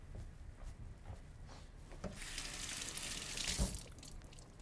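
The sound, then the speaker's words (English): Tap water running over a cut leek as it is rinsed. The soft rushing swells after a couple of seconds, holds briefly and then eases. It is faint, with a few small knocks before it and no talk. “I always cut it and wash it, because a lot of times you'll get dirt in here. I'm not seeing any dirt in here, but I'm going to give it a rinse anyway.”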